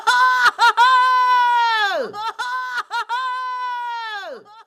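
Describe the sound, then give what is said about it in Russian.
A young hunter's triumphant victory cry after killing a huge beast at night in the forest. It sounds as a few loud, tonal, wailing calls with short breaks between them, the pitch holding steady and then dropping at the end of the longer calls. “Это был крик торжества и победы.”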